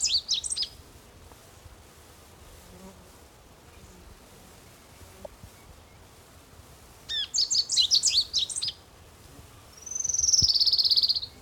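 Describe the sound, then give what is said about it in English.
A sparrow sings in short bursts of high chirps: a brief burst at the start, a rapid run of chirps later, then a sustained high whistle, over a faint, steady background. “Also, I believe it likes sparrow singing.”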